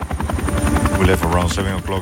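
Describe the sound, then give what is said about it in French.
A helicopter flying, its loud rapid rotor thumping pulsing low and steady throughout, mixed with engine whine, while a voice speaks over it. “On est parti à 7h du matin en hélicoptère.”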